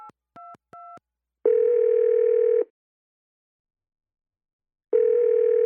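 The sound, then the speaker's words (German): A phone number is dialed, with three short keypad beeps in quick succession. A long, steady ringing tone follows, then a pause of silence, then a second ringing tone that is cut off at the end. “Schließlich wählt Richard die Nummer von Markus.”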